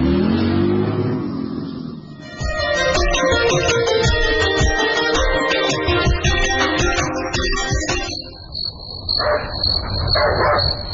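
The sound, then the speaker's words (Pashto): A dog barking in the middle of the night: two sharp barks near the end, after a long stretch of loud engine revving from a vehicle. “نه پوهېږم چې دا سپی ولې غاپي”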